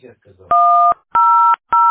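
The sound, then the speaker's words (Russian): Telephone keypad dialing tones while calling a utility company's automated line: three steady, dual-pitched beeps with short gaps, the last cut off at the end, after faint low murmuring at the start. “Я не знаю, я набираю.”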